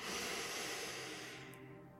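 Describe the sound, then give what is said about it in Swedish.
A deep breath drawn during a guided breathing exercise: one long, steady, airy rush of breath that holds level and then slowly fades toward the end. “Så nu tar vi ett till djupt andetag.”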